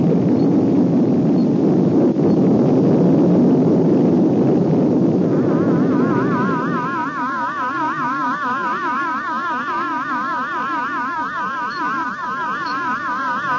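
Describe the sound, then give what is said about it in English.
A rocket blasts off after a countdown with a loud, broad roaring rumble for about six seconds. The roar then gives way to steady, wavering electronic warbling tones. “9, 8, 7, 6, 5, 4, 3, 2, 1. Blast off!”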